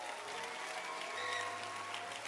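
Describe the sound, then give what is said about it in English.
Faint, steady clapping from a church audience applauding their pastor, a soft continuous patter of many hands held at an even, low level. “Clap your hands for your pastor.”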